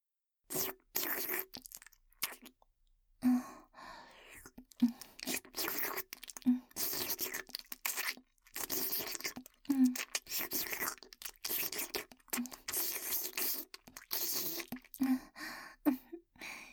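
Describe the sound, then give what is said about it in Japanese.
Wet licking and slurping sounds at the left ear, cleaning dirt near the ear opening, in close ASMR style: many irregular soft smacks and crackly bursts with brief pauses between them. “汚い耳でいてくれてありがとうございます、ご主人様。次は左です。出入り口付近の汚れ、舐めて掃除して、その汚いのを味合わせていただきます。”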